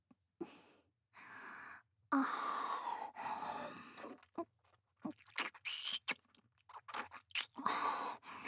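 Biting and chewing of a large mouthful of food, with irregular moist crunching and munching bursts broken by breathy gasps and short pauses, fairly quiet overall.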